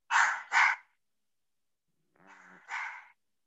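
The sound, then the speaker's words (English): A small dog or puppy barks, giving two quick, sharp yaps, then after a pause a softer, drawn-out yelp followed by one more bark. “It is a puppy or a small dog”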